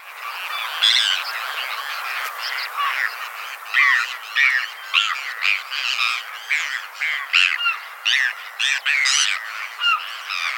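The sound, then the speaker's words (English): A sora rail calling alone: many sharp, squeaky, high notes repeated in a steady, rapid series that stays loud throughout. “Sora.”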